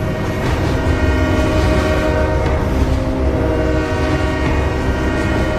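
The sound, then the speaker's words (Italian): A train rumbles steadily while its horn sounds as a loud, continuous tone throughout, over a dense, even roar of rail noise. “Quello è il treno che dobbiamo prendere noi tre.”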